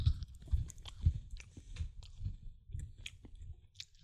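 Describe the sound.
Someone chews a dry matcha chocolate cookie, making quiet, crunchy bites in a steady rhythm, roughly one crunch every half second, with soft squishing between them.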